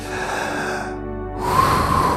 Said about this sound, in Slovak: Ešte raz nadýchni sa. Nech je to nádych slobody.